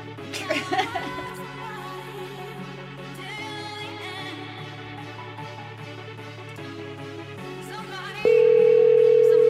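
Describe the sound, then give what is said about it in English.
A steady telephone tone as a call is placed to a woman's own cell phone number, beginning abruptly near the end and holding loud and unbroken after a quieter stretch of background sound. “So let's call her from her own cell phone number.”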